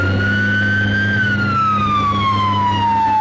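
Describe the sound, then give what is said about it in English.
A Ramstein Fire Department fire truck siren wails loudly, its tone holding high, then gliding gradually downward over a constant low engine rumble. “Before they left, the Panthers got to ride along with the Ramstein Fire Department.”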